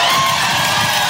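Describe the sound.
A church audience shouts for joy in a brief, loud, dense burst of cheering and whooping voices.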